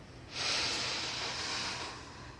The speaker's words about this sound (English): Okay, now take a deep breath.